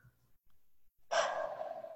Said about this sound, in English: Take an inhale and an exhale.